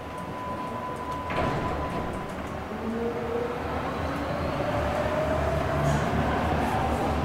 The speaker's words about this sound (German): Der Luftzug der einrollenden Bahn weht mir schwülwarm entgegen.